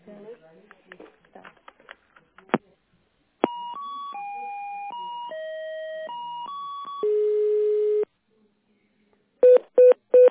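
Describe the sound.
Touch-tone telephone keypad beeps sound while an office call is being transferred. Faint clicking comes first, then a steady run of several distinct tones at changing pitches, a longer held tone, and finally three short beeps.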